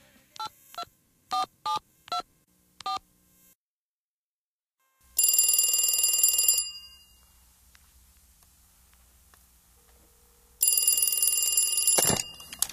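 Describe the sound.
Touch-tone dialing beeps in a quick series, then two long bursts of electronic telephone ringing, opening a song.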